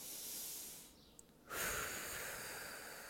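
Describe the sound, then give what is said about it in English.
A deep breath taken during a guided relaxation exercise: a quiet, airy hiss of breathing in, a short pause, then a longer and slightly louder breath out, with no talking. “And now I want you to take a deep breath.”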